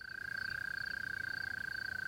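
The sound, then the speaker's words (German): Mole crickets chirp at dusk in the Murnau moor: a continuous, rhythmic, rapidly pulsing high trill that stays steady in pitch and loudness throughout. “Die Maulwurfsgrille etwa beschallt gerade eine ganze Fläche mit rhythmischem Zirpen. Und der Laubfrosch quakt zur Brautschau.”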